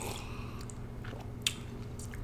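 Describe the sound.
Soft chewing of a raspberry-flavoured treat: faint, wet squishy bites with one sharper crunch midway, otherwise quiet and irregular.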